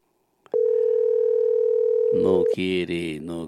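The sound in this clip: A steady, single-pitched telephone tone sounds for about two seconds while a call is being placed. A voice then begins speaking as the tone ends.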